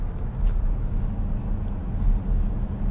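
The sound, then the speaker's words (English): A car rolls along a road on a drive up to a cottage, giving a steady, loud, low rumble of engine and tyre noise with no talking. “We're just on a drive up to our buddy's cottage, so we thought we'd record an episode on the way.”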